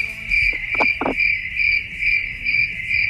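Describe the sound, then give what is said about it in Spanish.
Cricket chirping in a steady, high-pitched pulsing trill that repeats at a regular rhythm throughout, moderately loud and alone with no voices. “Creo que es un grillo”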